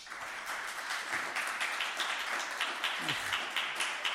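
Audience applause for a new postdoctoral fellow in exoplanet science: even, steady clapping from many hands that holds at a moderate level throughout.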